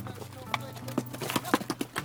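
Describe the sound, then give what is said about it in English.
The hooves of a dozen mules clip-clop on a rocky canyon trail as the herd climbs switchbacks: a quiet, irregular run of many hoof strikes over a low, steady background. “A dozen mules make their way out of the canyon as we hoof it down the switchbacks.”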